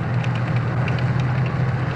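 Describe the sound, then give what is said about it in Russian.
A tank drives along a dirt road with a steady, loud, low engine drone and a constant deep hum. Faint rattling sits above the drone, and the sound is unbroken throughout. “Танк едет по грунтовой дороге.”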